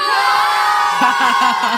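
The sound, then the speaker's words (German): Schoolboys cheering their team's win at a school sports competition: a loud crowd of young voices shouting together, with short, repeated rhythmic shouts in the second half. “Also, die SMS 10 ist Sieger bei den Buben und jubeln, glaube ich, ganz gehörig auf 3.”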